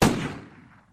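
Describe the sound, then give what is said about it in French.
A single rifle gunshot: a sharp, loud crack that lands at once, then a noisy tail fades away over about a second. “Le chasseur entre dans la cuisine, tue le loup d'un coup de fusil”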